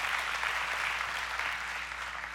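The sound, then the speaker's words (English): An audience clapping in steady, dense applause that holds an even level for the full couple of seconds, with no voices standing out. “Yeah, you can clap.”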